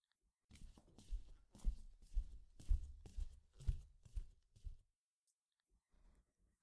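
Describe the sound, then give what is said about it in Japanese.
Someone walks along a hallway: a run of soft, evenly paced footsteps lasting about four seconds, then near silence. The steps are quiet throughout. “あらあら、誰かが廊下を歩いているみたいですね。”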